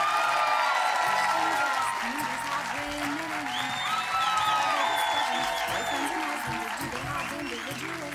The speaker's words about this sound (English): Make some noise for the Bechdelcast. Please keep that going for Jamie and Caitlin.